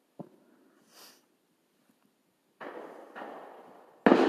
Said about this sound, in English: Somebody just got fireworked up.